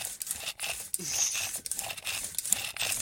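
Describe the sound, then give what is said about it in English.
A metal tape measure on a desk is pulled out and retracted, making a few faint, crinkly rasping scrapes and sharp clicks. No voices are heard. “I'm pulling out and retracting my tape measure that's on my desk.”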